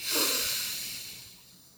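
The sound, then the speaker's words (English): A single deep breath drawn in during a guided grounding exercise, a soft airy hiss that swells early and then slowly fades over nearly two seconds, with no talking. “Let's start with three deep grounding breaths. So inhale,”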